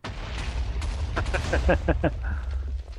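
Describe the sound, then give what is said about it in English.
TNT blowing up in the Minecraft video game: a quick cluster of sharp, crackling blasts packed close together over a low, continuous rumble. “I forgot that I can just place TNT whenever I want.”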